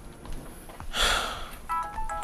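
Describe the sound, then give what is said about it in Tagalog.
A phone ringtone announcing an incoming call: after a short noisy rustle, bright electronic tones repeat in quick pulses near the end, moderately loud over a quiet background. “Sino kaya itong tumatawag? Anong oras na?”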